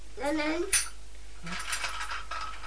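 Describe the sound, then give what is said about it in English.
A teaspoon clatters once as it fails to stay in place, giving a single bright, ringing metallic clink that is brief and faint against a quiet background. “Oh dear, that third teaspoon doesn't want to stay in, does it?”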